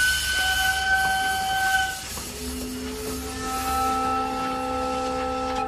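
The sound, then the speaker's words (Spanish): A train carriage carrying soldiers at night gives steady whistle-like tones over a low rumble. A high pair of tones holds for about two seconds, then a lower set of sustained tones takes over to the end. “Vagón de tren. 21 horas.”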